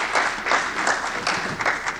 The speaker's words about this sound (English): Can we have a round of applause for him?